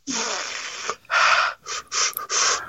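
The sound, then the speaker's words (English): Sharp, hissing breaths drawn in through the mouth to cool a burning tongue after eating spicy Flamin' Hot food. Five airy gasps come in a row, the first long and the rest shorter and quicker. “I'm having to breathe in some cold air”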